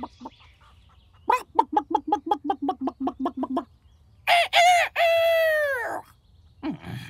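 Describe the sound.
A rooster calls a speckled hen with a rapid run of sharp clucks, then a long, loud, crow-like call.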